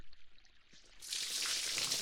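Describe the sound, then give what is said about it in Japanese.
Hot water pours generously over hair to rinse out treatment, starting after a quiet second as a soft, steady splashing hiss that continues to the end. “トリートメントはたっぷりのお湯で全部流さないとですからね。もう一回ですよ。”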